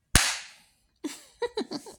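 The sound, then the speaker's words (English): A paddle lands one sharp, loud smack whose crack decays over about half a second. After a pause come a few shorter, quieter sounds. “I love the sound they make when I smack them.”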